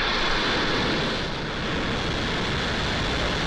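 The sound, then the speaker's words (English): Roar of a SpaceX Falcon 9 rocket igniting and lifting off from Cape Canaveral with satellites aboard, a dense, loud, steady rumble that fills the whole clip without pause or voices. “More than 100 commercial and government satellites are in orbit after a successful launch from Cape Canaveral yesterday morning. 3, 2, 1, 0. Ignition and liftoff.”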